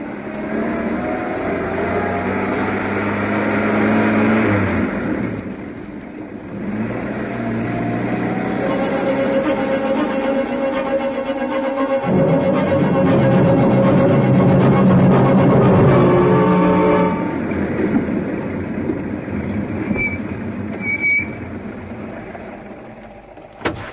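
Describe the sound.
A taxi's engine drones steadily for the whole stretch, a low continuous hum with a brief dip near the start, while people talk over it.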